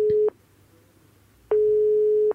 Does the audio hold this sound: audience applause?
no